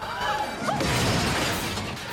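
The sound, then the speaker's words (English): A silver spaceship crashes through store windows and plows into a wall, making a loud, sustained burst of broad crashing noise that fills the whole clip with little break. “The silver spaceship crashes through the Acme windows and plows into a wall.”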